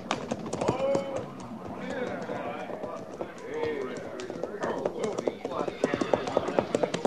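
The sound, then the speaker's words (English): Horse hoofbeats of a rider coming in to a cavalry patrol, with a clip-clop that grows sharper and more regular toward the end. Men talk over it throughout. “Ah, that'll be Harrison riding in, Captain.”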